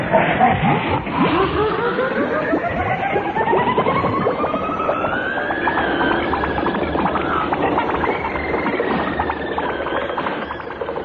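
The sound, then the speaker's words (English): Comedy sound effect of a vehicle driving at speed, a loud engine-like whine whose pitch climbs steadily through the first half and then holds high, with a rough rattling texture underneath. “The sound you are hearing is Neddy and Eccles driving a wall at speed.”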